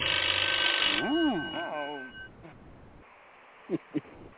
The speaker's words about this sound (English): You gotta answer the phone over there.